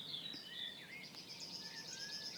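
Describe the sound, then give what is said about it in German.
Faint song of a great tit in the Lahn valley: thin, high, tonal phrases that run almost continuously over a low, steady background rumble. “Kohlmeise singt noch.”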